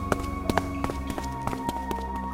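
Running footsteps of someone fleeing land as a quick, uneven series of sharp thumps over a steady low hum, with no voices.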